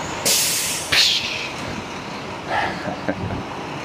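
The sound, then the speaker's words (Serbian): A city bus labelled as electric but running a diesel engine idles with a low steady rumble, broken by two sharp hissing brake bursts early on and softer hisses later. “Piše da je električna, ali čuješ da je motor dizel. Čuje ovo električna.”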